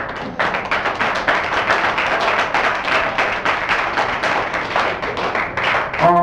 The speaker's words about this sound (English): And I would like to hear some applause for that. Yes, you're enthusiastic people. Come on, give me more.